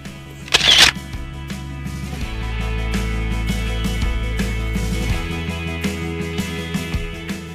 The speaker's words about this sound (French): Et puis je bouge à droite, à gauche pour voir euh, l'harmonie. Voilà, je prends la photo.